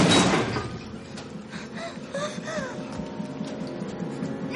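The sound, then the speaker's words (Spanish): A sliding door in a passageway pushed open just a crack, starting with a loud scraping burst followed by fainter grinding and a few short squeaky creaks. “Descubre una puerta corredera. La empuja, pero solo se mueve dejando una pequeña rendija.”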